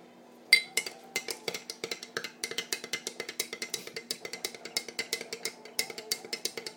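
A spoon stirring a milky drink in a cup: many quick, bright metallic clinks in a steady, even rhythm, continuing for several seconds with a faint hum underneath.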